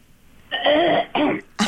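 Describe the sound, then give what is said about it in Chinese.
Someone clears their throat before singing, with three harsh, raspy bursts. The first is the longest, the second is shorter, and the last is brief and sharp. “要清喉咙。”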